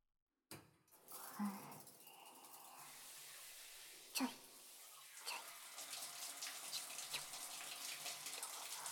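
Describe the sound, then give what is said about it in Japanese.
Hot water gushes from a tap in a steady, hissing stream that starts abruptly. One sharp knock cuts through partway along, and the flow grows slightly louder toward the end. “お湯だ。あったかい。”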